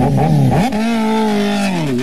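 A motorcycle engine revs with a loud, buzzing drone. Its pitch dips briefly, then climbs and holds higher before easing off slightly at the end, with no talk.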